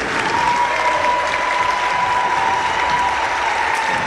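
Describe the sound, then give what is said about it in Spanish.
Audience applause for the teams taking part in a tournament's final day, a dense, even roar of clapping that holds steady throughout, with a thin constant whine beneath it. “Voy a nombrar para que le demos un fuerte aplauso a los equipos participantes.”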